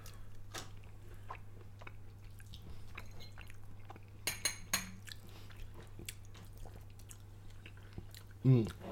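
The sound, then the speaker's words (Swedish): Chewing on a whole bite of aubergine pickle with chilli and lime: faint, soft mouth sounds and small wet crunches over a low steady hum, ending with a brief louder thump. “Nu ska vi prova aubergine pickle. Jag tar faktiskt den här biten helt så här.”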